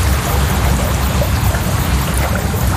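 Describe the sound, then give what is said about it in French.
Water flows steadily along an old 18th-century canal fed by a spring 3 km upstream, with a loud, continuous rushing and burbling and no pauses. “Là, on a le canal. Ce canal, en fait, on récupère l'eau à 3 km de la source. Elle a cheminé, donc c'est un vieux canal du 18e siècle.”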